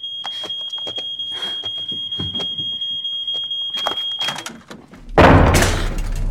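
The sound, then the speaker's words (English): A smoke alarm's high, steady tone rings over scattered knocks and rustles as it is twisted off the ceiling; the tone cuts out, and moments later a loud clattering thud follows as the alarm falls to the floor. “She straightens and moves underneath the alarm. Seizing a chair, she reaches up, her long, slender fingers stretching up to turn it off. The alarm twists off, falling to the floor.”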